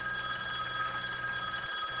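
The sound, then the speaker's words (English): A telephone bell rings continuously, a steady metallic trill that holds the same bright tone throughout. “Let me answer the phone.”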